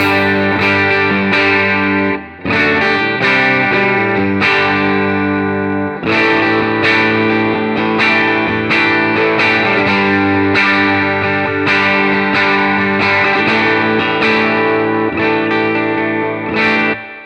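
Distorted electric guitar with original pickups, no treble bleed and old wood, strummed in loud, sustained chords with effects-laden shimmer, pausing briefly twice before ringing on steadily, without talk.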